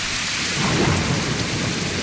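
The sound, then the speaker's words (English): A thunder sound effect layered onto a rain sound effect: a dense, steady hiss of rain with a low rumbling underneath, loud and continuous for two seconds. “And you know, while we're at it, we might as well add a little thunder to that rain.”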